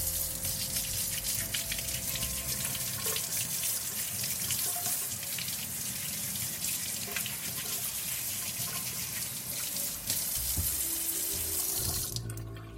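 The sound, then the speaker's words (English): Tap water running steadily into a sink while unpeeled carrots are washed and scrubbed under it, a continuous loud rush that holds for the whole stretch and shifts slightly near the end. “So I'm not even gonna peel them, I am just going to wash them and scrub them down.”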